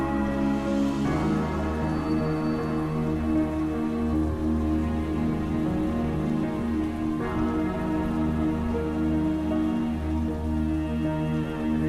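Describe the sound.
Rain falling in a steady, even patter that continues without a break under a sustained tonal drone, with no voices.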